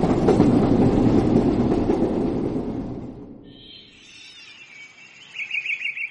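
A train runs on its rails with a loud, rattling rumble that fades away after a few seconds. Faint high chirping tones follow once the rumble has died down.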